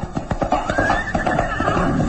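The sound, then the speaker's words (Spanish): A horse whinnies loudly in a dramatized scene, a wavering neigh over a rapid clatter of galloping hooves that continues steadily, as the horse rides off into thick fog. “Siga a la bestia y sale al galope perdiéndose entre la espesa niebla, como si fuese devorado para siempre.”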